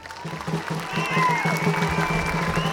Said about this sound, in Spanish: Quiero pedir un fuerte aplauso por este equipo que me ha acompañado.